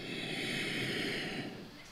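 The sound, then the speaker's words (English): Breathing in through the nose during a guided breathing exercise, heard as a steady, soft airy hiss that holds for about two seconds and eases off slightly at the end. “Inhale”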